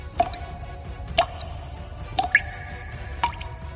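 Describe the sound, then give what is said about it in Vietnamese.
Blood dripping onto ice: four sharp, evenly spaced drips about one second apart over a low background rumble. “Lượng lớn máu tươi chảy ra, nhỏ xuống mặt băng.”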